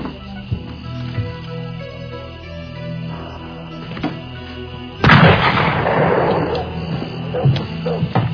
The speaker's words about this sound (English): I just fired in the air to scare whatever it was.